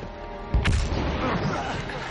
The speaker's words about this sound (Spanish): El barco explota.